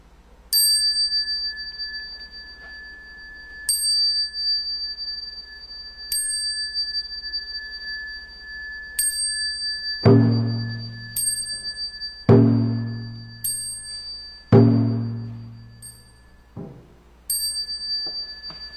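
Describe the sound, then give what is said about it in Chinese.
A yinqing Buddhist hand bell is struck to signal collective prostrations during group worship. Many bright metallic strikes come at uneven intervals, each high ringing tone fading slowly, and a few carry a heavier low thump. “所以这个时候的号令呢，就由引磬来代替。所以现在我们来看一看，引磬呢是怎么样在敲，怎么样在礼拜。”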